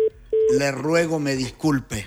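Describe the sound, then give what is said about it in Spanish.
An incoming telephone call alert: two short, steady beeps, the second longer than the first, followed at once by a person speaking. “Tengo llamada.”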